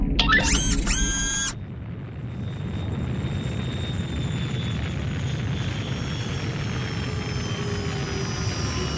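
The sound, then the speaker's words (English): Spaceship making a rough landing: a burst of warbling, high electronic tones gives way to a loud, steady roaring rumble that carries on to the end. “Oh no, this is going to be one rough landing! Oh god! Oh, that is a rough landing!”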